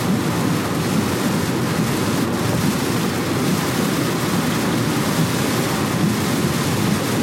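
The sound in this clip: Heavy rain pounds while driving, making a dense, steady roar that stays loud and unbroken throughout.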